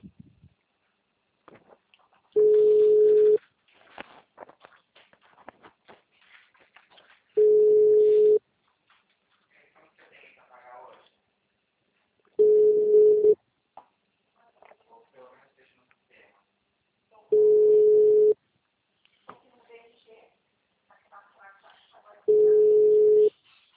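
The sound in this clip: Outgoing phone-call ringing tones sound after the dial button is pressed. There are five steady, mid-pitched tones, each lasting about a second and evenly spaced about five seconds apart, with faint scattered noises in the quiet gaps between them.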